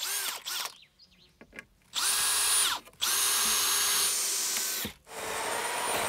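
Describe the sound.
Power saw cutting a door opening through the wooden planks of a house facade in the southern Black Forest: a loud, high, sustained whine in several long runs broken by brief pauses.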